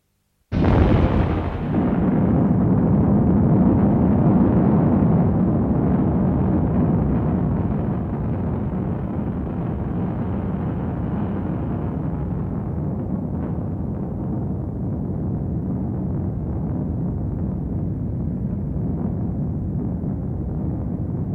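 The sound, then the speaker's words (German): A single heavy explosion bursts out suddenly, then settles into a long, steady roaring rumble. The rumble eases only slightly and lingers for about twenty seconds, with no voices. “Er fragte sich, ob man die Explosion bis hierher hören würde.”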